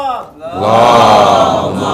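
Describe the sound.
A crowd at a religious majlis gathering shouts a loud response to a called slogan. A single voice comes first, then a sustained, powerful roar of many voices starts and holds to the end.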